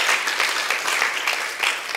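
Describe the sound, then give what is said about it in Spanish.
Applause from a church audience during a Spanish-language sermon: steady, dense clapping that holds loud throughout, swelling a few times, with no voices standing out. “Gracias por el aplauso, déselo a Dios.”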